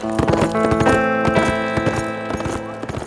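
A horse's hooves clip-clop steadily as its rider heads into timber, a brisk, even run of many hoofbeats with soft music underneath.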